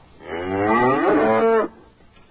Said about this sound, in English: Look out, he's got a cow!